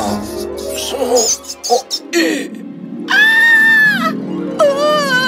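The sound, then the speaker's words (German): Rats squeaking and screeching, a fairy-tale pest effect, with high, shrill, drawn-out squeals. Choppy vocal squeaks and chatter come first, then two long, piercing screeches stand out clearly near the end. “Sie waren sogar in Besprechungszimmern und störten die Gespräche mit ihrem Quietschen und Kreischen.”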